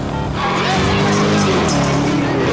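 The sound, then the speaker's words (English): Cars speed through traffic in a chase, with an SUV fleeing and several black cars in pursuit. Engines roar continuously with squealing tires layered over a steady, loud rumble. “Ethan leaps into the vehicle, which then races off among the traffic. Several dour black cars speed after them.”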